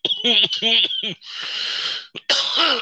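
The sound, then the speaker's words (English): A smoker coughing hard: a few rough, voiced coughs in quick succession, then a long raspy wheezing breath and one more loud cough. “So some of us and the guests do smoke. So if you hear me cough,”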